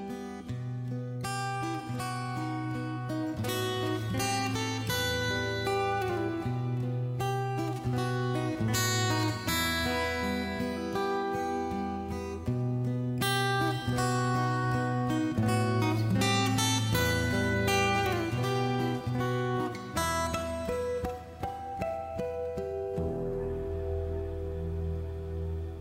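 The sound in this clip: Hard rock song by a 1980s Norwegian band, with full band instrumentation, heavy sustained bass notes and a driving beat, loud and dense throughout before thinning out near the end.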